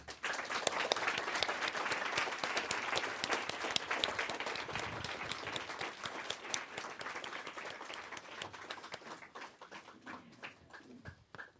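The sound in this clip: Audience applause welcoming two guests to an on-stage conversation in Oslo: steady, dense clapping from many hands that thins and fades toward the end.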